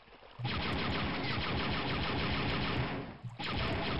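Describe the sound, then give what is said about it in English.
Interrogator droids in a video game shoot green laser bolts or plasma balls, making a loud, dense, rapid stream of firing that runs almost continuously, with a short break near the end before it resumes. “those interrogator droids seem to shoot some kind of green laser bolt or plasma ball”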